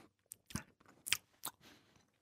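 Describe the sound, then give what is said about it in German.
Crisp crunching as someone bites into a small worm-like snack, golden-brown with little rings, about 1.5 cm long and seasoned with salt and pepper: several faint crunches and chews separated by quiet gaps. “es ist etwa eineinhalb Zentimeter lang, hat so kleine Ringe, goldbraune Farbe. Und ich beiß einfach mal rein.”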